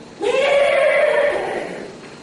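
A goat bleats once as it arrives home at the entrance to a lane: a single loud, wavering, nasal cry lasting about a second that trails off gradually.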